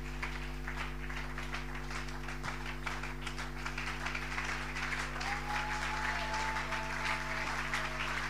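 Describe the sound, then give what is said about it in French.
Congregation applauding in church, a dense, steady clapping that runs unbroken from start to finish at an even level, with a low hum beneath it. “Nous nous levons pour acclamer le Seigneur notre Dieu.”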